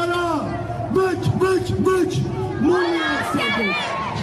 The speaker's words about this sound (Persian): هزاران ایرانی از مقابل ساختمان پارلمان دانمارک راهپیمایی خود را آغاز کردند. راهپیمایی که تا مقابل شهرداری کوپنهاگ ادامه داشت.